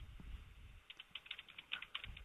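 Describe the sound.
Fast typing on a computer keyboard makes a quick run of many light, crisp key clicks, fairly faint, with a low rumble underneath at the start and no talking.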